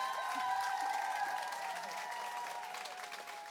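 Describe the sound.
Faint crowd applause and cheering for an absent team member. A steady patter of many hands runs throughout, with a few thin, high whistle-like tones, easing slightly toward the end.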